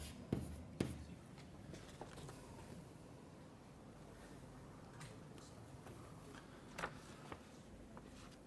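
Handwriting during a maths lecture as letters and formulas are written out: faint, intermittent scratching strokes with a few sharper taps, and no talk.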